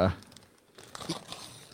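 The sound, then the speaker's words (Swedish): Wrapping paper crinkling as a gift is unwrapped: a brief soft thump, then a short stretch of light rustling and crinkling. “skyddat. Inslagspapper. Det är skyddat.”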